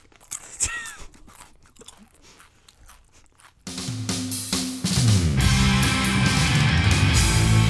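Loud crisp crunches and chewing as a chip is bitten and eaten, a few sharp bites followed by irregular munching, then music starts up and swells to full volume.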